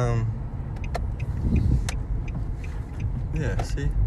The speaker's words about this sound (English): Sorry, I'm driving, so it's a little bit rough to be as focused as I want to be.